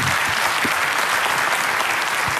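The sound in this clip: Applause from an audience welcoming a guest is steady, dense and loud, with no break from start to finish.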